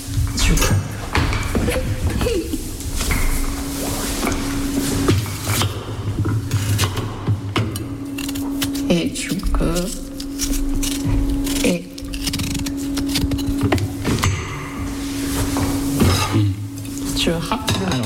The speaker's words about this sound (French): C'est marrant, j'ai pas vu souvent ce format de râpe. Ah oui, parce que ça vient du Japon. C'est une râpe ronde avec des gros trous. Oui. Et là. Tu viens de râper un radis.